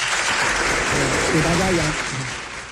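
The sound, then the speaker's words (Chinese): Audience applause just before a musical performance, a dense, steady patter of clapping with a voice speaking over it midway, easing off slightly at the end. “那先鼓掌后欣赏啊，开始”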